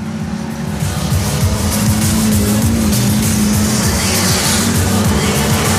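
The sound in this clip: Racing cars at full throttle sweep through a bend in a field of 26 during a race final. A steady, loud, layered engine drone of overlapping revs continues without a break.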